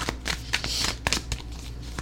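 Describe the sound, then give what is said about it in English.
Tarot cards being shuffled, quick papery riffles and crisp flicks repeating in an irregular, fairly brisk rhythm. “Got all kinds of cards popping out today, guys.”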